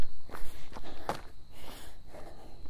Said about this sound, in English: as we come to our top of the hill, we're going to walk in 3, 2, 1.